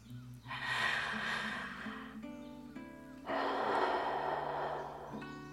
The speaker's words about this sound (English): I am going to encourage you to join me in taking three deep breaths.